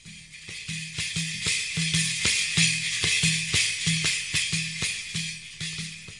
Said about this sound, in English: by playing the Mazhar instrument, which is a very large tambourine, and it sounds like this.